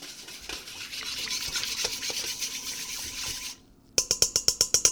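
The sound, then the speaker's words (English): A whisk stirs a yeast mixture in a bowl for soft pretzel dough, first with steady swishing and scraping, then after a short pause with a run of many quick, evenly spaced clinking strokes. “And speeding it along with the whisk a little bit.”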